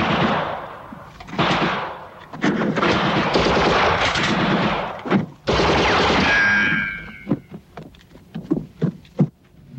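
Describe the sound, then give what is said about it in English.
Heavy machine-gun fire during a firefight with guards, loud dense sustained bursts that break into sparser separate shots toward the end. “Guards swarm toward the fugitives, but Lewis pins them down with heavy fire.”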